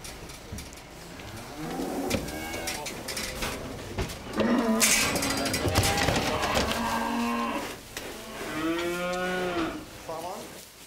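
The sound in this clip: Cattle lowing, heifers with a bull on a farm on Amrum: several loud moos in a row, some long and drawn out, heard with no talk over them.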